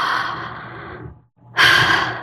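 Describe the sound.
A deliberate, slow exhaled breath, a long airy rush that fades into a brief silence before a second, louder breath begins.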